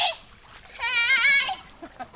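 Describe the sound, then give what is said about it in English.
Girls splash in a family's backyard swimming pool on a hot, humid day, with brief watery splashes and a high-pitched, sing-song child's vocalizing in the middle. “It's hot and humid, so it's a relief for the girls to be able to splash in the family's backyard pool under the watchful eye of two college student aides.”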